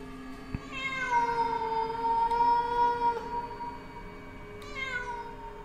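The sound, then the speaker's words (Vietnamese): A cat yowls at night in a long, drawn-out, wavering cry that holds a steady pitch for a couple of seconds, then gives a second, shorter and fainter yowl. “tiến dần về cái chỗ con mèo vẫn đang kêu réo lên từng hồi.”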